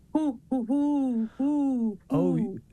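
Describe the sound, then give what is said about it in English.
A human voice imitating the hoot of a great horned owl, giving a few drawn-out, resonant hoots in a steady rhythm, the last one slightly wavering. “mine was more of a hoot. Okay, because mine was more of a squawk, and the Merlin said it was great horned.”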